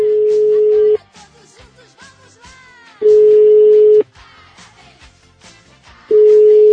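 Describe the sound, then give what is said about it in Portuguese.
A telephone ringback tone sounds as a call is placed: three steady one-second beeps at even intervals, with faint, busy background sounds in the gaps between them. “Exatamente, vamos ligar para ela aí.”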